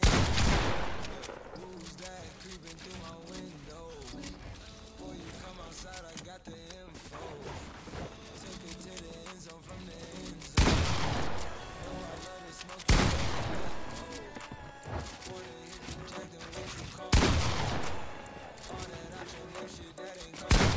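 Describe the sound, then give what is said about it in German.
Gunfire in the Fortnite video game, including a pump shotgun, sounds as dense, steady game noise broken by a few loud, sharp bursts of shots. “Das ist wirklich Fortnite, Digga. Einfach 38er Headshot. Ach, Digga, wir haben die Pump.”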